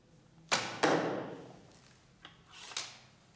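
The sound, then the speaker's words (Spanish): Arrows shot from a bow during archery practice: two loud, sharp hits close together with fading tails, then two softer hits later, set against near silence. “Durante la práctica, solo existe una tarea: apuntar y disparar.”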